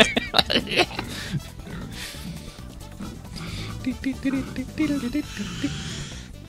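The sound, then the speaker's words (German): A voice imitates a pig grunting, picturing a dancing pig that grunts in time. It comes as a quick run of many loud, rough grunts and snorts with people talking. “ich stelle mir so ein Schwein beim Tanzen vor. Das grunzt dann auch im Takt.”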